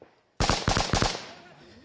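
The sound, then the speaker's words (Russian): Gunfire breaks out near a railway station in the town of Rubizhne: a quick run of sharp, loud cracking shots after a moment of near silence, each shot trailing off in a short decay. “Сейчас здесь началась стрельба, непонятно.”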